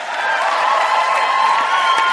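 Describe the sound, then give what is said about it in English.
Church audience cheering and clapping in a practice round: a dense, steady wash of whoops, shouts and applause that holds at an even, loud level for about two seconds. “Let's have a practice go. Give a cheer and a clap.”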